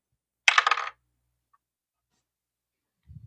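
Dice rattle across a table during a Dungeons & Dragons 5e tabletop game: one brief clicking clatter lasting about half a second, then near-silence and a faint low thump at the end.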